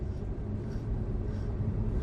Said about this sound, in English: It's a classic case of Los Angeles traffic that's taking place right now.